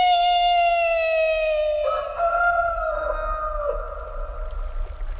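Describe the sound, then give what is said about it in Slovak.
A rooster crows in one long, sustained, bright harmonic call that steps to a different pitch partway through, loud and alone against a quiet low rumble. “Kikiriki!”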